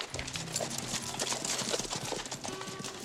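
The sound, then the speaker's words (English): Horses galloping off and kicking up dust: a quick, continuous clatter of hooves, faint and steady, running throughout without a pause. “Everyone stands outside and watches as Earl and Valentine gallop off into the dawn, their horses kicking up dust as they go.”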